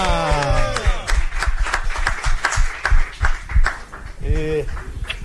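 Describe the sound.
Hand claps ring out in a radio studio to welcome a guest: a burst of quick, irregular claps, with people talking just before and again near the end.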